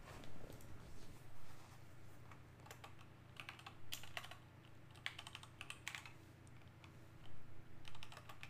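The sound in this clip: Fingers type on a computer keyboard while someone looks up a football team's schedule. The faint clicks come in irregular bursts of rapid taps, separated by short pauses.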